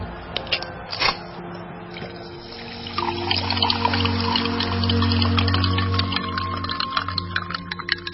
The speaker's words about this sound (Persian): نوشابه‌ای که باز کردی صداش تو استودیو هم اومد. ما داریم راجع به ناامنی و جنگ و خونریزی حرف میزنیم، شما با آرامش نشستی نوشابه میخوری؟